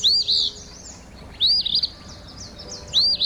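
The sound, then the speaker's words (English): An Eastern Phoebe, a small, chunky, tail-pumping flycatcher, sings its raspy, name-saying song. Three short, buzzy high phrases are spaced more than a second apart over a faint, quiet background. “It's that of our featured feathered friend, the Eastern Phoebe, a small, chunky, tail-pumping flycatcher that's brown above, with a darker head and whitish below,”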